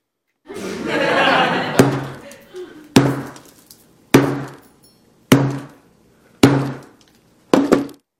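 Six hard, cracking blows land at a steady pace as a mobile phone is smashed until it breaks and bends. Each impact is loud and sharp with a short decaying tail, after a stretch of broader, rougher noise at the start.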